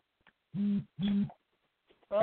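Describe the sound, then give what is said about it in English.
A tablet notification buzz: two short vibrating buzzes sounding in quick succession, each lasting about a third of a second and fairly strong. A voice starts speaking right at the end. “What did my phone buzz? Nope, okay, the tablet buzzed.”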